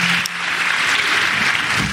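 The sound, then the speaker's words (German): Loud, dense applause from an audience welcoming a stand-up warm-up, steady clapping that fills the whole moment with no talk over it. “Also erstmal einen großen Applaus bitte dafür.”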